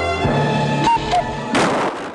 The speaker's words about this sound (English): He shoots the cuckoo clock.